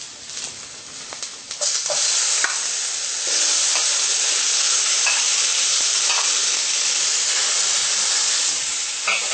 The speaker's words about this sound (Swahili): Unakoroga pia kwa namna hii, mpaka zisikizane na kitunguu.